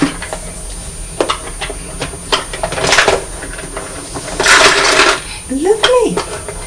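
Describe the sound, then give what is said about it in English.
Toy digger tipping its load into a toy skip: scattered small clicks and rattles, with a louder rattling spill in the middle and more knocks toward the end. “So the digger's tipped all right into the skip.”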